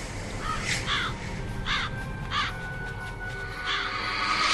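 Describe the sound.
Crows cawing: several harsh, rasping caws at irregular intervals over steady background noise, with a faint thin tone running beneath.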